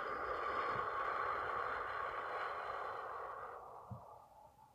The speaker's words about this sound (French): Et une cinquième fois, nous inspirons doucement par le nez. Et nous expirons par la bouche.